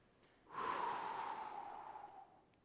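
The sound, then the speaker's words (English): A single long, forceful breath out, blown onto people as a demonstration, rising quickly then sustained and slowly tailing off over about two seconds. “And with that, he breathed on them”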